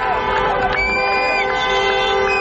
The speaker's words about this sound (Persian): مردمی که پرچم لبنان به دست شعار می دادند ارتشی جز ارتش لبنان را نمی خواهیم.